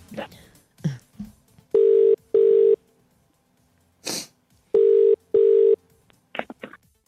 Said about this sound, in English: Let's dial him up now.